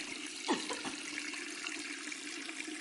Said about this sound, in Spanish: En el baño, George sujeta la cabeza de Anne bajo el grifo del lavabo.